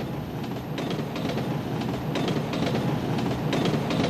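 A train travelling on rails toward Berhampur rumbles loudly and continuously, with a rhythmic clickety-clack of wheels over rail joints running through the steady roar.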